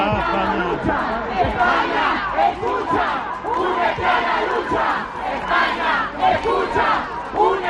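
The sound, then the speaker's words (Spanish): Rhythmic chanting from a crowd of protesters at a rally backing Juan Guaidó, with many voices shouting a call to Pedro Sánchez's government. The chant repeats in steady waves, with chatter underneath. “Eso sí, este era el cántico más escuchado, un llamamiento al gobierno de Pedro Sánchez.”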